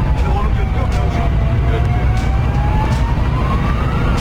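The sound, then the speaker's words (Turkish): A fire truck's siren wails in traffic while a car in the left lane fails to yield. Its slowly wavering tone sweeps over a loud, steady engine and road rumble. “Sol şeritte ilerleyen otomobil siren ve ikaz lambalarına rağmen itfaiye aracına yol vermedi.”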